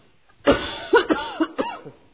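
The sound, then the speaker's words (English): A woman's harsh coughing fit, several rough, throaty bursts in quick succession, loud and with no speech. “I'm going to cough all day.”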